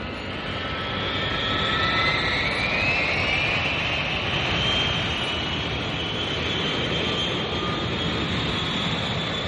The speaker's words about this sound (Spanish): Abróchense los cinturones porque despegamos.